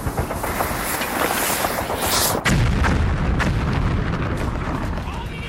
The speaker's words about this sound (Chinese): 行了，躲开！我要扔手榴弹了！